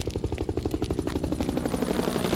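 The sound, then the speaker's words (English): A helicopter flies overhead, its rotor thumping in fast, even pulses over a loud engine roar. The sound holds steady throughout. “Then what am I? A helicopter. Must be the police again.”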